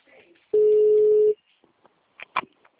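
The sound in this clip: A telephone tone sounds while dialing to place a call: one steady, clear electronic beep lasting under a second, followed by a few faint, brief tones.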